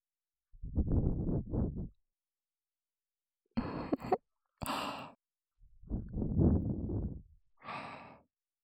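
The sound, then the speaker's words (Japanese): Gentle breathy blowing into the ear comes as five soft puffs, some long and drawn out, others short, each separated by silence. “耳をふうふうしますね”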